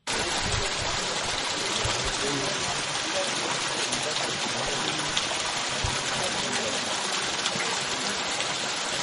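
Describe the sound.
Water flowing from a water pump as cows drink in a drought-hit village in Zimbabwe, a steady, loud, unbroken rushing and splashing that holds at an even level from start to end.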